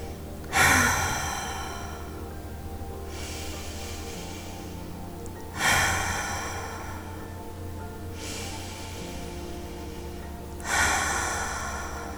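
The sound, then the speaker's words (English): Deep cleansing breaths during a guided meditation: three slow breathing cycles, each a loud, airy inhale followed by a softer, drawn-out exhale, spaced evenly at a calm, unhurried pace with no talking. “To start this practice, let's take some cleansing breaths.”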